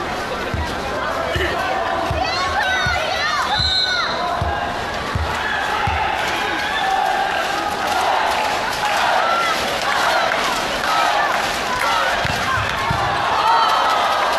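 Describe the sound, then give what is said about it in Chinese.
A server in a volleyball match bounces the ball several times before serving, with dull thuds under a steady, loud crowd roar and talk. “现在呢，保定沃利是换上了2号徐克来冲发球。”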